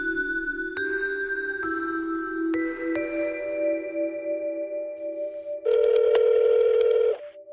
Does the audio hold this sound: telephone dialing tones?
yes

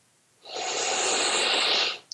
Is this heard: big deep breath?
yes

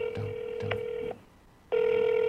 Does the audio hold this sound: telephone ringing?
yes

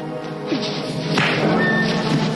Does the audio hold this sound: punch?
yes

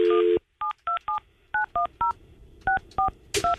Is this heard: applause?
no

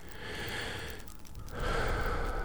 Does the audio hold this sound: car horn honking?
no

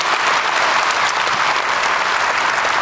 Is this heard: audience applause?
yes

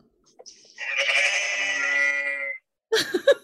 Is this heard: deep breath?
no

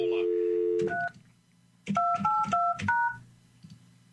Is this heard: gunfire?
no

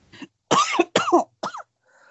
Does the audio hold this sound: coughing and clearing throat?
yes

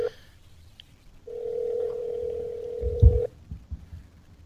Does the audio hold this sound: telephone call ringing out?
yes

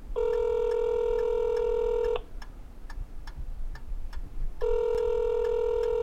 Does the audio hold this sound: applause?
no

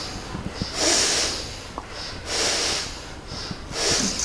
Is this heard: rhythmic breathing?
yes

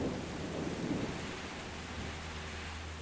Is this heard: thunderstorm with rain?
yes

